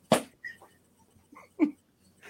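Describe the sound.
A single sharp sneeze bursts out loudly at the very start, brief and breathy, followed by a few faint, short sounds.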